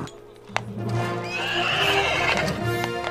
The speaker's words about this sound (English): Counting, Achilles stamps his hoof.